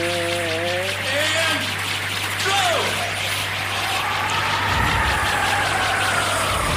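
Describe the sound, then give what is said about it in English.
A whirring spinning sound effect from a video game plays during a midair spin into a special stage, a continuous swirl with sweeping, wavering tones over a steady low hum. “All right, starting to spin. Midair spinning. Here we go. Sound effect for spinning.”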